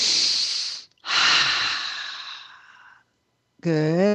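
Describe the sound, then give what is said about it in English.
Two long, deep breaths during a guided relaxation meditation, each a soft breathy rush of air, the second drawn out longer, followed by a brief spoken voice. “So just take a couple of deep breaths.”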